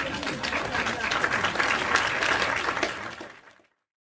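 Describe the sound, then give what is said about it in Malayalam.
Applause sound effect dropped into a talk show: a dense, steady wash of crowd clapping that holds for about three and a half seconds, then quickly fades away to silence. “പിന്നെ ഇതൊരു talk show ആയതുകൊണ്ട് ഇടയ്ക്കിടയ്ക്ക് കയ്യടി പാസ്സാക്കിയ വളരെ നല്ലതായിരുന്നു. നോക്കട്ടെ. അത് തന്നെ.”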